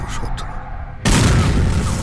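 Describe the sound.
Gunfire from ships approaching through fog toward a coastal town: a sudden loud boom about halfway through, then a sustained, heavy, rumbling roar that stays loud to the end, following a quieter stretch of low noise.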